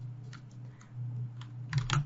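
Typing a short greeting into a text box on a computer keyboard, with a few faint, scattered key clicks and a quick cluster of taps near the end over a low steady hum.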